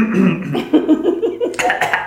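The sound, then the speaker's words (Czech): A coughing fit: a quick run of short, rough, voiced hacking bursts in close succession, moderately loud, with brief gaps between spasms. “Promiňte. Záchvat kašle.”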